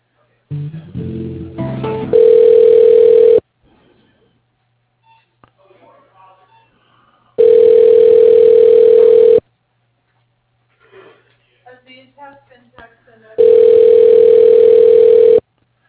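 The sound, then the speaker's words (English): A telephone line ringing while an office call is transferred to voicemail: three steady, loud electronic ring tones of about two seconds each, separated by gaps with faint clicks and line noise. Brief muffled sounds come before the first ring. “Hold on a moment, and I'll transfer you over.”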